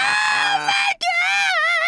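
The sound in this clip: A voice imitates women screaming at a wrestler at a wrestling event, producing high, wavering shrieks. Two loud sustained screams are split by a brief break.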